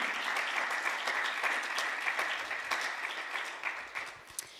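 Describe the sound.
An audience applauds after a sung performance with a dense, even patter of many hands, held at a moderate, fairly soft level and tapering off with a few scattered claps at the end.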